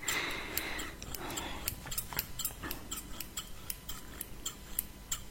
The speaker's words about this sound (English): Your clothes are quite hard to cut, but I guess it's a good thing.